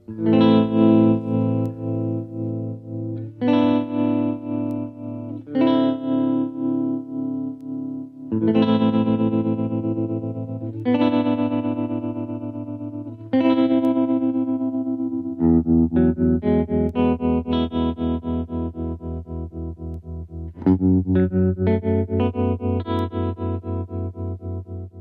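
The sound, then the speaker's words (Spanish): Electric guitar chords played through a tremolo pedal, the volume pulsing rapidly within each sustained chord. The chords change every couple of seconds, and the pulsing runs at different speeds across the passage with no voices. “Vamos a escuchar primero este efecto de trémolo a diferentes velocidades, porque el trémolo, que es una especie de oscilación de volumen, mucho poco, pero muy rápido, puede darse a diferentes velocidades.”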